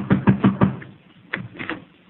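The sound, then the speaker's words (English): Knuckles rap on a front door: four quick, evenly spaced knocks, a short pause, then a few more, dull and thudding. “Knock on the door.”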